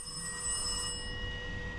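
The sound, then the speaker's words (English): A telephone rings with a steady, continuous trilling bell tone. It holds through the whole moment, and its brightest overtones fade partway through. “Oh, ringing again. Oh, flipping egg. Pick the phone up, for goodness sake.”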